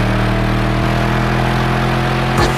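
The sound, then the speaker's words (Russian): A car engine runs at a steady, loud idle, a dense low rumble with an even mechanical throb that holds unchanged. A faint knock comes near the end. “Эй, шофер, заводи мотор!”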